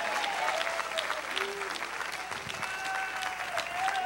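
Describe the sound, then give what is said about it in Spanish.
Lukewarm applause from a church audience: steady, dense clapping throughout about four seconds at moderate loudness, with faint voices mixed in. “Bueno, ese aplauso aguado, agárrenlo para ustedes.”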